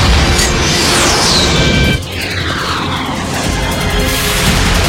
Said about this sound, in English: Missile loose!